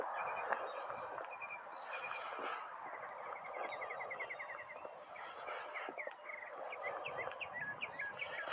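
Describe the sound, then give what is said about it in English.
Birds chirping faintly, with short high chirps and quick trills repeating over a steady hiss. “These birds.”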